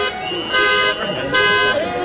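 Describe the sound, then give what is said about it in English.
Car horns honk outside a mansion late at night as a few hundred vehicles gather to protest, sounding overlapping sustained blasts that swell louder in two surges. “Quiet down out there! Quit honking your horn!”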